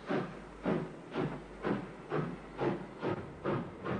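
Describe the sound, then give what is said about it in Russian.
A train carriage rolls through a forest at night, with the sound heard from inside a dimly lit car. Broad hissing bursts pulse in a steady, regular rhythm and stay evenly loud throughout. “Я сижу в тускло освещенном вагоне, пробирающегося через лес поезда.”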